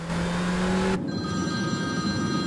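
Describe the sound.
A phone rings with steady, bright electronic tones, heard after about a second of droning car engine as a car is driven fast.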